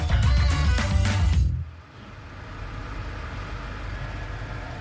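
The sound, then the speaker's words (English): A car is driven around Washington, D.C., with a steady, low rumble of road and engine noise. A dense, louder burst of sound cuts off near the start before the drone settles in. “I'm masked up and driving around Washington, D.C.”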